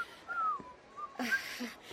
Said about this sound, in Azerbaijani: xahiş edirəm bu qədər fit çalma.